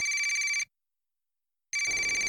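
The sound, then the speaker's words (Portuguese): A telephone rings with an incoming call, giving two bursts of a high, buzzing, trilling electronic tone separated by about a second of silence. “Um tempo depois da prova, ele recebe uma ligação.”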